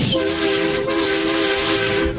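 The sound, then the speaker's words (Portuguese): A taxi's car horn held in one long, steady blare that runs loud and unbroken through the whole clip, honked during a horn-honking call-in. “Vai, buzina aí.”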